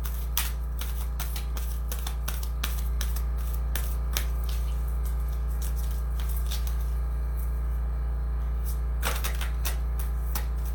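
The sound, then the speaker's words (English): Cards from the Mother Mary Oracle deck being shuffled and drawn: many scattered soft papery flicks and clicks, bunching together near the end, over a steady low hum. “And now we're going to pull a card from the Mother Mary Oracle.”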